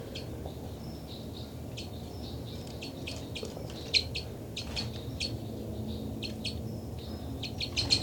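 Flight calls from two birds crossing overhead: many short, high chirps in quick, irregular bursts over a steady low background, with one call standing out louder midway.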